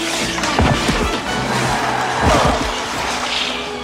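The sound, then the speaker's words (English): Ice hockey players check each other into the boards while scrambling for the puck in a corner, heard as dull heavy thuds and scraping amid a constant loud wash of rink noise. “They scramble for the puck in the corner, checking each other into the boards.”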